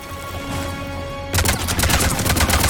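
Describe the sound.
Gunfire from a gun in a video game firefight breaks out partway through, after a steady low hum, as a fast stream of many sharp, loud shots in quick succession.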